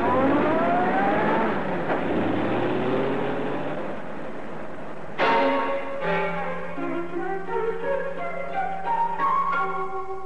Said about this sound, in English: Drives away.